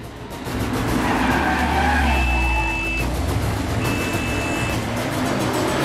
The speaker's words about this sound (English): They tear through narrow, winding streets and weave among men on mopeds. The car gets stuck behind a truck.